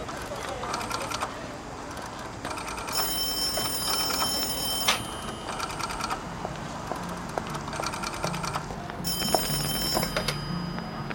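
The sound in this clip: A telephone rings on the line after a number is dialed for a collect call to a residence. Several bright, jangling ring bursts are separated by short pauses over a steady hissy background.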